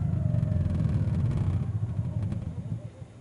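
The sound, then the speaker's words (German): After the ignition is cut at 4000 rpm on a motor glider, the propeller spins down with a low pulsing rumble that gradually weakens and fades toward the end. “Nehmen die Geschwindigkeit auf 90 km/h zurück und nehmen das Gas raus. Und bei 4000 schalten wir die Zündung aus. Jetzt läuft der Propeller aus.”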